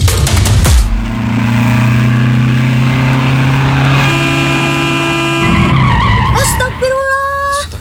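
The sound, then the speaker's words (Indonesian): Loud, drawn-out tire screech from a speeding car skidding as it nearly hits a pedestrian crossing the road, a steady high squeal sustained for several seconds over engine noise. “Hati-hati atuh, Pak. Gak usah ngebut segala. Aduh, hampir aja nabrak yang lagi nyebrang.”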